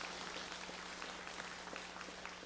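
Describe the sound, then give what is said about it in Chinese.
A church audience claps their hands to give glory during a service, a dense, steady patter of many hands that stays faint and even throughout, with no voices. “Amen 的人拍手把荣耀归给主好不好？”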